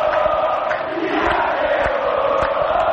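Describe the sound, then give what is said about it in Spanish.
Olimpia supporters in the north stand at a football match with their team leading 2-0, a loud, unbroken mass of chanting and singing voices that holds steady throughout. “Olimpia gana 2-0. Público de Olimpia, sector norte.”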